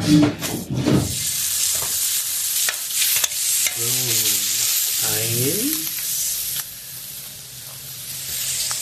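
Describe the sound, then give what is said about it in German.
Fresh bratwursts sizzle on a grill, giving a continuous frying hiss with a few clattering sounds near the start and brief tonal sounds in the middle. “Frische Bratwürste. Die sehen gut aus. Auf den Grill. Auf den Grill ne?”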